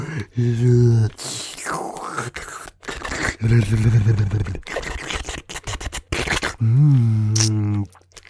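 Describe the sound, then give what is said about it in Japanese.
Wet, close ASMR licking sounds on a face in a roleplay, coming in several slurping bursts between short, sustained voiced murmurs. “君のその嫌そうな顔を見てたら、ベロベロ顔舐めたくなっちゃったよ。”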